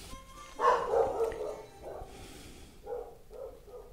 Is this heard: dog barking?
yes